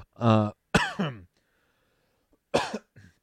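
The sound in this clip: Coughing and throat clearing from someone with phlegm: a few short, rough bursts separated by silent gaps, heard alone without talk.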